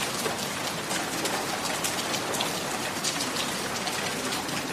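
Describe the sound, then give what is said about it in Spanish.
Steady rain falls in an Amazon jungle, a dense, continuous hiss scattered with fine drop patters, holding an even loudness from start to finish with no voices. “¿No sienten esa lluvia que moja ahora mismo nuestros rostros?”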